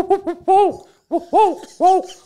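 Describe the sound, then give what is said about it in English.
A human voice imitates an owl hooting, giving several loud hoots that each rise and fall in pitch, with a couple of shorter hoots at the start. “Yeah, that was a good owl.”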